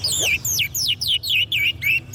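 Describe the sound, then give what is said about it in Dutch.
Song of a twa-twa, a small seed-cracking bird with a thick beak: a quick series of high, clear whistled notes, each sliding downward, repeats in steady rhythm over a low background hum. “Ja, de twa. Maar zijn het dan allemaal vrouwtjes vogels of zijn het ook mannetjes, die twa-twa?”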